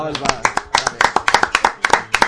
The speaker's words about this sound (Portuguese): Ele merece uma salva de palmas.